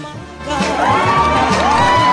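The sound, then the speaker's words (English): Friends cheer and whoop around a kitchen table in a squat after a birthday cake's ring of candles is blown out, a lively burst of overlapping voices that stays loud and sustained throughout. “His friends applaud.”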